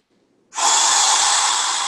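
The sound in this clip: Deep breathing during a guided breathing exercise: one loud, rushing breath starts about half a second in and holds steady and full to the end, with no talking.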